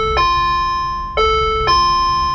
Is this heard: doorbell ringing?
yes